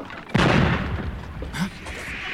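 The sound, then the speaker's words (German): Cannon fire from an attacking sailing ship in an audio drama: one sudden heavy blast with a rumbling tail, then a softer second burst. “Sie schießen auf uns. Sie können doch nicht so nah sein.”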